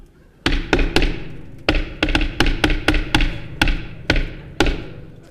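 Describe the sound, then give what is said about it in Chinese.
Knocking on a door, performed in a stage comedy routine: many loud, sharp thuds in irregular bursts, some spaced apart and others coming in quicker runs, each decaying quickly. “你干嘛呢？ 敲门。”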